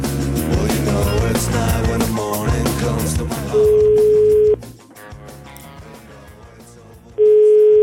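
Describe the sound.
Telephone ringback tone heard while placing a call: a steady, loud single-pitch tone lasting about a second, then a pause, then the tone begins again. Music plays before the first tone and fades away.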